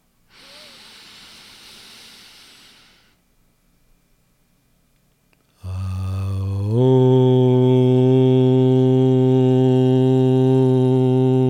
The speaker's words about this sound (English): Let's seal this trust meditation by chanting Aum, the hymn of the universe, together.